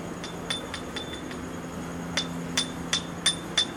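A small Thai bell, a takhrang, is struck in many quick, light taps, giving short bright metallic clinks, with a few stronger strikes toward the end over a faint steady hum.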